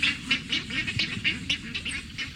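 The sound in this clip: Snow geese calling in a rapid, unbroken series of high, nasal honks, many calls overlapping one another above a low, steady rumble.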